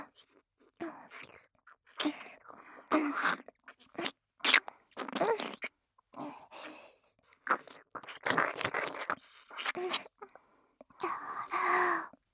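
Wet ear licking and mouth sounds come in bursts of slurping and smacking separated by short pauses, with breathy moaning mixed in.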